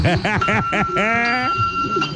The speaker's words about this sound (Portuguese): Bateu o sino, vai começar a catequese.